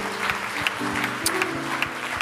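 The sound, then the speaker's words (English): Church audience clapping together during a service, a steady rhythmic beat of claps over sustained musical tones, lasting throughout. “Give the Lord a great hand clap for that.”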